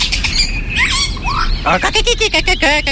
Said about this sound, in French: Oh, le joli Philoscopus colibita. ...apprend les chants d'oiseaux.